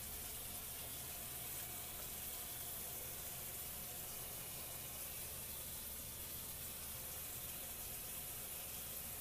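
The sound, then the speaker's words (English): Water running from a kitchen tap, heard as a faint, continuous hiss that stays even throughout without breaks or splashes. “Okay, I'm gonna turn the water on, see if I see anything that's happening under here.”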